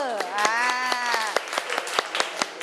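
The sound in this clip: Scattered hand claps from students in a classroom ring out as a few sharp, uneven slaps beneath a sustained voice whose pitch glides slightly. The clapping stays sparse and irregular rather than building into full applause.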